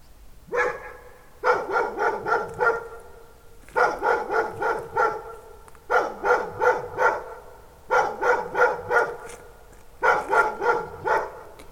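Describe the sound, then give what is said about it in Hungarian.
A dog barking about 50 metres away near a hill in Sirok, the barks echoing strongly: repeated bursts of several quick barks each, separated by short pauses, steady and alone. “de megérkeztünk Sirokra, és tőlünk milyen messze lehet az a kutya? Hát olyan 150 méter. 50 méterre ott a kutya, de nagyon vízhangos, ott arra hegy van?”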